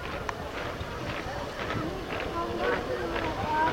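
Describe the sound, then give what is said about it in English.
Marching feet of a parade passing a reviewing stand of dignitaries and uniformed marchers, heard as a steady, rhythmic tramp of footfalls under continuous crowd murmur and wind noise. “A reviewing stand over there with a lot of dignitaries, a lot of white uniforms. What they are. Pick up the marching feet.”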